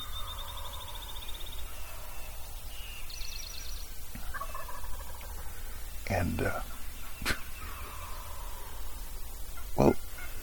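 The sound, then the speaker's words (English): Wild turkey gobblers gobble from the roost in answer to a hen's calls. A few faint gobbles rise among thin chirping birdsong, over a steady low background hiss. “The reason is what you're hearing. These gobblers are all still stuck on the roost, all honoring her calls”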